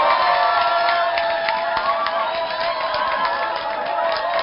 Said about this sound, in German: Und ich denke, das ist doch ein kleiner Applaus wert.